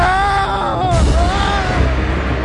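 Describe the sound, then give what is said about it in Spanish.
A man's harrowing scream of fright rings out loud and sustained, a strained, harmonic-rich cry lasting a couple of seconds with no other voices. “Este hombre llegó a saltar de la impresión y lanzó un grito desgarrador.”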